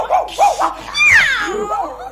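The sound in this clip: A dog gives a few short, high yips, followed by a longer whimpering whine that falls in pitch. The sounds are moderately loud and heard alone.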